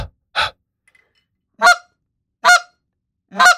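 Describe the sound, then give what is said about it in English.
Clean-air clucks blown on a game call: several short, sharp, loud honking bursts in a steady, spaced rhythm, with silence between them. “Your clean air cluck is going to sound like this, straight air.”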